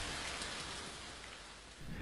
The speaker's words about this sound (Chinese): 大雨倾盆而下。